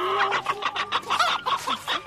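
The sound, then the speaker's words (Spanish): Hens cluck in quick, irregular bursts, with many short overlapping clucks from a flock. The sound stays fairly soft and heard alone. “Usted tiene exactamente 132 gallinas, ¿no es cierto?”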